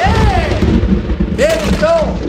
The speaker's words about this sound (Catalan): I aquests trons?